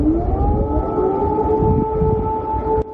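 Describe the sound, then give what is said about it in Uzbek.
Air raid sirens wail across Kyiv, several overlapping steady tones that climb briefly at the start and then hold loud and unbroken over a low rumbling background, with no talk. “Kiyevda yana havo sirenalari.”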